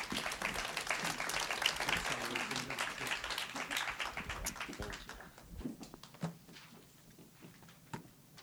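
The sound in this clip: Church audience applauding to welcome a speaker: dense, loud clapping for about five seconds, then thinning out to a few scattered claps.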